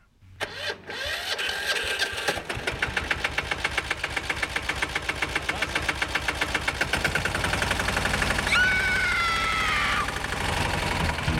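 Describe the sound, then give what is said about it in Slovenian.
A small cultivator engine sputters into life and then runs with a steady, rapid chugging of regular firing pulses. A thin whine rises briefly near the end. Moderately loud with no talk. “E, ja, kaj pa je to? Ja, kultivator.”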